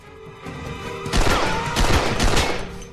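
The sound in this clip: Gunfire from a warning salvo in a storeroom during a pursuit: a loud, rapid volley of sharp shots over the second half, after a quieter lead-in.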